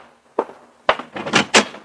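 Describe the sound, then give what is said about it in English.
A newspaper thumps against a door at dawn: a few dull knocks and scuffs, first spaced apart, then bunched together toward the end. “the jarring thump of the paper grazing my door told me a new dawn was with us.”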